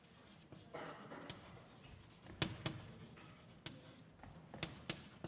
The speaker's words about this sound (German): Ich schreibe es nochmal deutlich dahinter, in Klammern speziell hier.